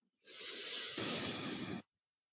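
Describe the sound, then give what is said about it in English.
A deep inhale through the nose during a relaxation exercise, one steady, airy, hissing rush of air lasting about one and a half seconds, alone, cutting off sharply. “And then let's take a nice deep inhale through your nose.”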